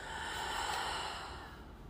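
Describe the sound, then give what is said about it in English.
A deep breath drawn in and fully released during a guided breathing exercise, one continuous airy rush that swells slightly through the middle and then eases off. “Going ahead and taking a deep inhale. And fully exhaling.”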